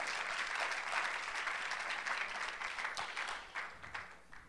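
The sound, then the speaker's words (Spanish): A church audience applauds the Lord during a sermon, a dense, steady wash of clapping that holds throughout, thinning slightly with a few distinct claps toward the end. “Dele un fuerte aplauso al Señor.”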